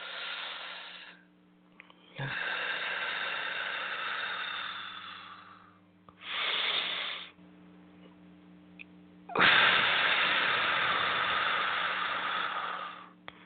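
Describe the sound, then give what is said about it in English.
Deep breathing during a guided breathing exercise: several long, airy inhales and exhales, one after another, over a steady low background hum. “One more time. Inhale. Now exhale. Let's do it again. Inhale.”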